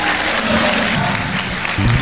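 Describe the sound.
An audience applauds at a religious worship gathering, giving dense, steady clapping that stays loud and continuous from start to finish.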